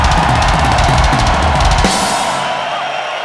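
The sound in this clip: Concert crowd cheering at Brixton Academy in London: a loud, dense, sustained roar of voices and noise that eases slightly toward the end.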